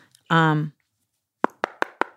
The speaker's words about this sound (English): So I'm knocking, but I'm knocking on an open door, you guys. I'm knocking on an open door.